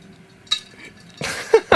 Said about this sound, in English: Shall I scrunch the ice into the mic? Putting the last few bits of ice in. Okay, here's the sound of ice.